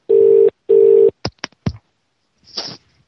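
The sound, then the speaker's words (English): A UK telephone ringing tone: two short bursts of steady mid-pitched tone in quick succession, followed by a few sharp clicks and one brief noisy hiss. “It's the only problem with these UK numbers. Too much ringing.”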